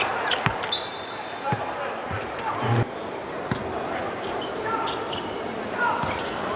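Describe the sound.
A basketball being dribbled in a figure-eight during a game, with many sharp, hollow thuds scattered across a steady wash of crowd noise and commentary.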